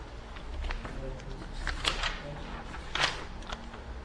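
Pages of a Bible rustle as someone turns to Matthew 9:18, with a few soft papery flicks and crackles rising over low, steady background noise.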